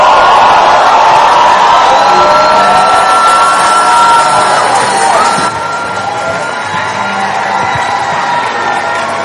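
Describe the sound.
A church audience on its feet cheers and shouts to welcome Apostle Joshua, a loud, dense and continuous roar of voices and whoops that eases slightly about halfway through but never stops.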